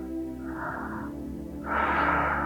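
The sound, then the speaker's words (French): Deep breathing during a guided breathing exercise: a shorter, softer airy breath followed by a louder, longer one, both over a steady low musical drone. “Inspirez, relâchez. Inspirez, relâchez. Inspire, on relâche.”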